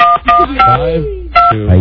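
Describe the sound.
Telephone keypad tones sound as someone dials an international number to Mexico: a few short, steady dual beeps, mixed with voices talking.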